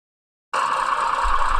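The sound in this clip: An engine at the start of a runaway suddenly cuts in with a steady, buzzing high drone that holds level and strong to the end.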